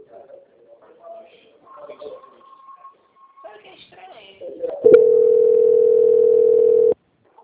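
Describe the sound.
A telephone tone sounds while a call is being transferred: one steady, loud, unbroken tone lasting about two seconds, coming after faint, muffled voices.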